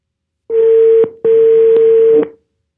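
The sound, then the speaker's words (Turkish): Telephone ringing tone on a call being dialed: two steady, even-pitched tones separated by a brief gap, the second one longer, with nothing else heard. “Bugün Mine'yi arıyorum. Umarım arıyorum.”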